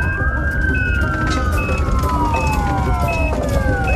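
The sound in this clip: An ambulance siren sounds as a patient is taken to the hospital. Its loud, continuous wailing tone slides slowly downward in pitch over a steady low background noise.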